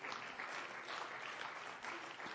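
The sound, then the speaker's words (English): Congregation clapping during a church sermon: dense, steady applause from many hands, loud and continuous throughout without a break. “Give the Lord a hand clap for that.”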